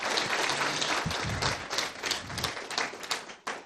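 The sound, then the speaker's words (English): An audience at a church gathering breaks into loud, dense applause, a crackling mass of clapping that stays strong and then thins out toward the end. “They're hiding out in the overflow room, so I want to hear some applause from the overflows as well as here.”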